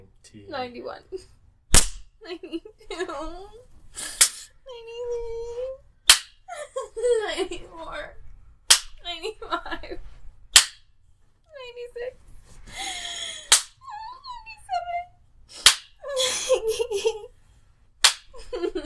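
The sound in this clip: Repeated spanking slaps on buttocks: many sharp, loud cracks spaced a couple of seconds apart, with a voice whimpering, moaning and talking between the hits.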